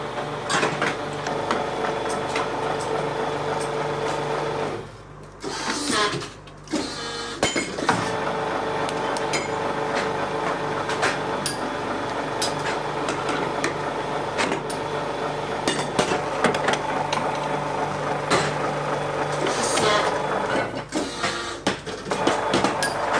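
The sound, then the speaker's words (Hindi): A PVC injection moulding machine making sports shoes and sandals runs with a steady, dense mechanical clatter and hum, with tonal whine throughout and a brief drop in level near the middle. “Hopper में ऊपर दाना डाला जाता है PVC का, वो दाना screw में जाएगा, मेल्ट होगा, गर्म होगा और नीचे मशीन में इंजेक्ट होएगा। अब जैसे देख सकते हैं डाई के अंदर अब इंजेक्शन हुआ है,”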